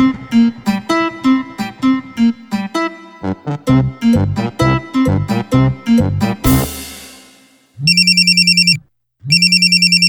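A telephone rings with a bright electronic warbling ringtone in two loud bursts separated by a short gap. Music plays before the ringing starts.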